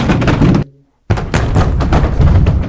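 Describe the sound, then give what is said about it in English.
Short, close-range full-body strikes landing in a martial arts demonstration: loud, dull thuds and knocks in quick clusters, broken by a brief silence before a second flurry of impacts. “자, 이렇게 때리는 게 아니라 이렇게 때리는 거죠. 짧게 때리는 거예요. 이렇게. 전신을 이용해서”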